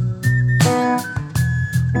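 A whistle from Ireland carries a high melody over a song, with steady sustained tones and regular punchy drum hits underneath.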